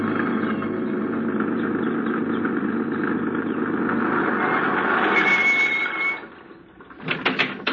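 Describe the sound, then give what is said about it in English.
A truck engine drones steadily as the vehicle drives down a hot, dusty street past a mine's frame buildings. A rhythmic mid-pitched hum stays even for about six seconds, then drops away, followed by a few short clattering knocks. “he swung the truck wide around the native village. And a few minutes later, he was driving down the hot, dusty street that separated the four frame buildings of the Tabora mine.”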